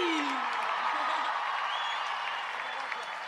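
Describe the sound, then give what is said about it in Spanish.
Audience applause for a performer: a dense, steady wash of clapping that stays loud and even across the whole stretch. “Fuerte el aplauso para Nico Mattioli.”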